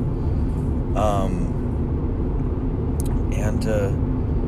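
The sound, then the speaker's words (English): Steady low road rumble fills a car interior while it is being driven, a constant dense drone with brief voice fragments rising over it. “I'm driving back. I'm actually about half an hour from my house at this point.”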